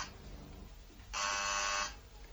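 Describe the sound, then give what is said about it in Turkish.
A single electric buzz from a doorbell being rung at a woman's door by police. It is a steady, harsh tone lasting under a second, rising clearly above a low background hum. “İşte biri kadının kapısını çalıyor.”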